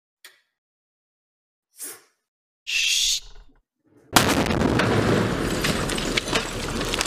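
A grenade is thrown and explodes: a few faint clicks and a breathy whoosh come first, then a sudden loud blast that rolls on as a sustained, noisy rumble.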